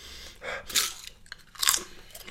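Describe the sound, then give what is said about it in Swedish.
Crunching of truffle potato chips being bitten and chewed, a few crisp crackling bursts that rise and fall, moderately loud, with no talk. “Ta ett tryffelchips. Tryffelchips?”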